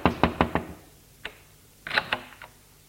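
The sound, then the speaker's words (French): A chauffeur knocks on a door with four quick, sharp raps, then a lone knock and a short cluster of clicks and thuds. “Le chauffeur frappe à une porte et l'ouvre.”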